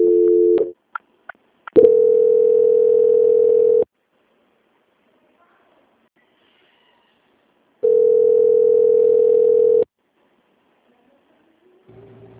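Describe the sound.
Telephone line tones sound while a call is being transferred: a few short beeps open, then two long, steady tones of about two seconds each, separated by a stretch of silence, with a faint different sound at the very end.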